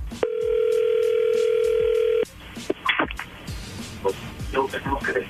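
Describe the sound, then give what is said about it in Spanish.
A steady telephone line tone hums evenly for about two seconds while a dropped call is redialed, then stops abruptly and people begin talking. “ahí se está marcando de nuevo”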